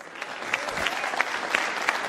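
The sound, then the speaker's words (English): Crowd applause: a steady, dense roar of clapping with a few sharper claps standing out now and then at even volume. “I think we got to warm up the crowd for some applause.”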